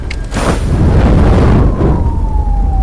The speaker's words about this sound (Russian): Люди в них стали свидетелями двух сильных взрывов в здании.